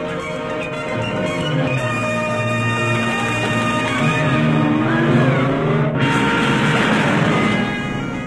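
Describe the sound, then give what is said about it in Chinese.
A car engine revs loudly and pulls away as the car drives off, holding a strong, steady roar. A brief shift in the sound comes near the end. The car is a getaway car in a staged assassination drama scene. No one speaks. “快开车，你认识路。”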